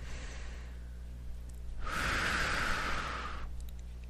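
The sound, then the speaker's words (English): One deep, slow breath is taken alone: a soft, airy rush that swells and then fades. It is fairly faint and has no voices over it. “Nice deep breath, please.”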